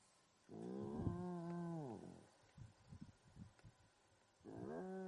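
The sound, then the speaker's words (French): Hyena calls: two long, harmonic, moaning cries that bend in pitch, one at the start and one at the end, with a run of short guttural grunts between them; no voices. “Ça, ce sont des hyènes, je crois. Oh, je crois qu'on va avoir un petit segment de hyènes.”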